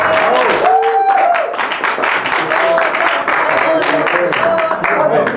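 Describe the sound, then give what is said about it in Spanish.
Applause from an audience at a narrative-song workshop for trainers. The rhythmic clapping goes on steadily, with voices calling out over it. “Un super aplauso.”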